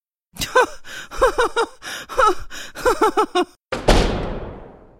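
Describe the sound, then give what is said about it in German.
A door slammed shut in someone's face: a run of breathy, rhythmic laughing bursts is cut off by one loud, heavy bang that rings and fades slowly. “schlägt mir die Tür vor der Nase zu”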